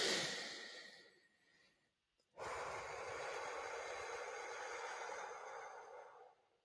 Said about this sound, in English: Try it now. Inhale for a count of three and out for a count of six, like this.